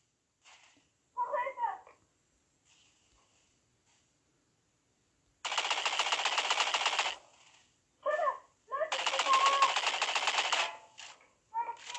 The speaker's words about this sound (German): ich sehe dich, ich sehe dich, ich schieß gerade.